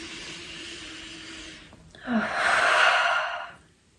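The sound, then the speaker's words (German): A person takes a deep, slow breath, a soft airy rush that swells into a louder hissing breath and then fades away, with no talk during it. “Ja, lass uns gerade mal zusammen einen Atemzug nehmen.”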